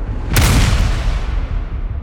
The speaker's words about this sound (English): Then, with a blast from Clyde's shotgun, flies backwards.